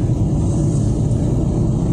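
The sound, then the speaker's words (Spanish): A motorcycle engine runs at 60 km/h in traffic, a loud, continuous low rumble with steady wind and road hiss over it, even in level and without any distinct rise or drop. “Como esta moto. ¿Ves? A 60 por hora.”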